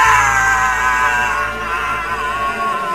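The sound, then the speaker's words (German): A long, high, strained scream rings out near a supposedly haunted old house and holds for about three seconds, growing slightly weaker toward the end. “Hast du das gehört? Ja, der Schrei ist wahrscheinlich auch mit aufgenommen.”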